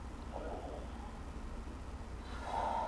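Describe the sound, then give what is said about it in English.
A deep breath, drawn as a soft, airy rush of air over a steady low background noise, swelling a little louder near the end. “if you can just take a deep breath”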